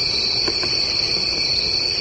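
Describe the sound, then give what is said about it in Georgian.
Crickets chirp in a continuous, high-pitched, steady trill that stays fairly loud and unbroken from start to finish, with no voices. “ასობით მილიონი ადამიანისთვის ეს უბრალოდ ჭრიჭინების ხმა არ არის.”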